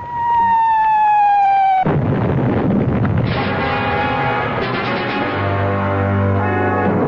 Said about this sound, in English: you're going to have to stay here until this bombardment stops